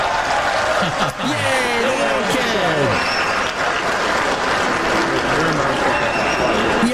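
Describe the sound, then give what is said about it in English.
A tennis crowd applauds and cheers while a ball boy offers a player his hat. The clapping is dense and unbroken from start to finish, with voices talking over it. “Now, listen to the crowd, and their reaction is because one of the little kids, a ball boy, came up, and he says, here, do you want to try my hat?”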